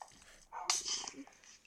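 Dogs barking in the Minecraft video game: a short burst of high, yelping barks in the middle, fairly faint against a quiet background.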